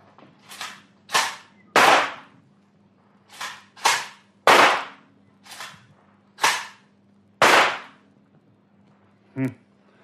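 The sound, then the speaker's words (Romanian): Sharp gunshots fired at a shooting target during a contest of three shots each. A quick series of loud, cracking reports comes at irregular spacing, followed by one short, fainter pop near the end, with no talk. “Vom trage fiecare câte trei focuri de armă.”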